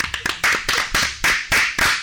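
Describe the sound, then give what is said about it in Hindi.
Audience clapping loudly after a storytelling session about a foolish monkey and a king. The claps come as a steady series of sharp, loud bursts with no talk. “जोरदार तालियां हो जाए।”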